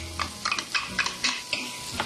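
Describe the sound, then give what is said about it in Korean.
Onions, garlic and green pepper stirred in olive oil in a pan over medium heat: steady, rhythmic scraping strokes of a utensil against the pan, with a soft sizzle underneath. “And we stir.”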